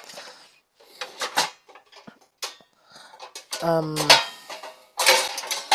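Metal loaf pan picked up and handled during cooking, giving a few clanks and scrapes and one brief ringing metallic tone among quieter rustling handling noises.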